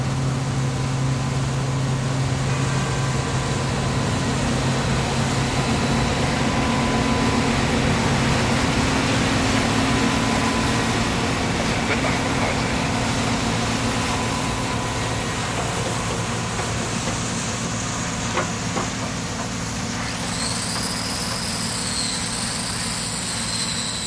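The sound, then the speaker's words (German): Engine drone of a Polish Bison Z056 combine harvester from the 1980s running on farmland near Magdeburg: a loud, continuous low rumble with a steady whine and hiss, unbroken throughout, with a high, thin tone appearing near the end. “Ein polnischer Mähdrescher aus den 1980er Jahren, ein Bison ZO56”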